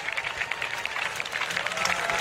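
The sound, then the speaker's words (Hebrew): Applause from a night-time outdoor concert crowd beside the Sea of Galilee while a guitarist readies on stage. Many hands clap in a dense, steady patter that grows slightly louder toward the end. “והקהל נערך בציפייה למה שהולך לבוא. הרבה מחיאות כפיים.”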